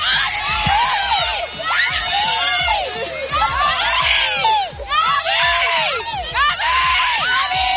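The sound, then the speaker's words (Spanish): Fans cheer wildly for Barcelona player Gavi at an open training session, a dense, loud crowd roar full of high shrieks and whoops that keeps up almost without pause. “Escucha cómo enloquecen con él. Es la Gavi manía.”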